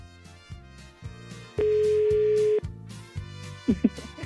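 A telephone ringback tone sounds while a call is dialed: one steady tone lasts about a second over a soft, repeating low pulse, and a couple of short chirps follow near the end.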